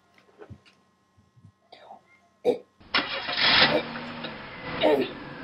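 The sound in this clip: A car engine starts up abruptly and keeps running with a loud, rough roar, following a few seconds of soft, scattered voices and small noises.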